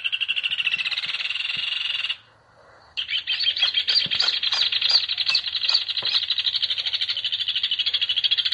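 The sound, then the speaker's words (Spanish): Rufous hornero song: a loud, rapid, rattling chatter that runs continuously, breaks off for under a second, then resumes just as dense and bright to the end. “Estamos escuchando al hornerito, el hornero.”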